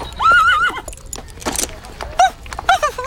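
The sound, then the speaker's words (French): A pony neighs in a high, wavering whinny, followed by shorter whinnies and hoof clops, at a place where children ride ponies. “et des enfants qui font du poney.”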